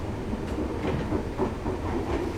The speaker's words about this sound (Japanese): これから先カーブが多く電車が揺れますのでご注意ください。